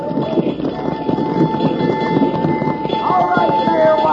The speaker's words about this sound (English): Here comes that stranger with a new fire wagon.